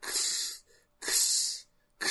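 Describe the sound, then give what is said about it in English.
Hissing breaths from suited characters in a video game, two long airy bursts separated by short silences, with a third breath just starting at the end, steady and fairly loud with no talk. “I think that's meant to be their breathing. It, like, conflicts with their dialogue sometimes”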